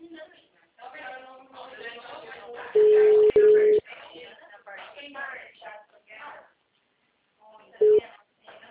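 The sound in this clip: Steady, mid-pitched telephone beep tone from a dropped phone call, sounding in two long bursts close together and one short burst several seconds later, louder than the voices that talk throughout around and under it.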